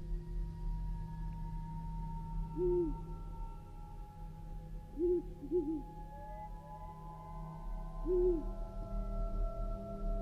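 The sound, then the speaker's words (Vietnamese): An owl hoots from far away in a gloomy, still forest. A few soft, low hoots come several seconds apart, faint over a steady low background hum. “Thì thoảng lại có tiếng chim cú đâu đó từ xa rúc vọng lại như là đang gọi bầy.”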